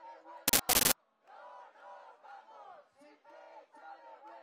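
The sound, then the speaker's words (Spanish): Crowd chanting and shouting at a street demonstration in Barcelona, heard over a poor, distorted transmission. Two sharp, loud bursts come near the start, then sustained chanting voices rise and fall in waves. “Pues parece que nos llega con algún problema el sonido desde allí, desde esa manifestación en Barcelona, donde se encontraba nuestra compañera Sandra San Germán.”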